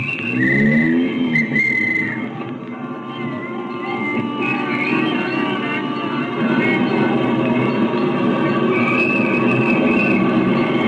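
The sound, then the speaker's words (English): A taxi cab drives up Broadway in evening traffic, a steady engine drone with shifting tones that runs the whole time, loudest at the start and again toward the end. “There'll be plenty of traffic tonight, so let's get an early start to the theater. Here's my cab. Won't you step in? All right, driver, up Broadway.”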